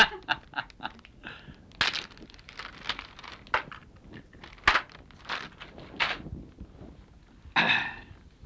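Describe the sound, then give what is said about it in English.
Crinkling and crushing of a bag as someone struggles to open it, in many irregular bursts of rustling with brief quiet gaps between them. “can't get the bag open.”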